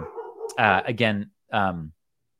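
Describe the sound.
A dog howls and whines in a few tonal, drawn-out cries, then goes quiet after a short break.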